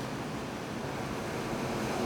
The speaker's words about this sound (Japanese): こんな波音がね、部屋から聞こえるんですよ。